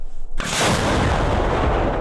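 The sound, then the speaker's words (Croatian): A single American Paladin howitzer shot from the 24th artillery brigade near Chasiv Yar: a sudden, very loud boom that leaves a heavy, sustained rumble rolling on to the end. “24. artiljerijska brigada koristi američku haubicu u blizini grada Časiv Jar. Obično pucaju na pješadiju koju uoče na prvoj liniji fronta”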